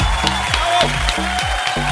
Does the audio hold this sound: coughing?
no